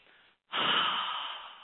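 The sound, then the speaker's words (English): One deep breath, a long airy inhale rising in after a brief softer breath and a short pause, fairly faint and steady before slowly tapering off, with no voices. “If I tell you right now, take a deep breath. Go ahead,”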